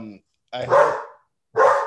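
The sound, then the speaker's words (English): A dog barks twice. Both barks are loud, sharp and hoarse, separated by a short pause. “sorry about the dog. Well, that sounds professional. I know he barked.”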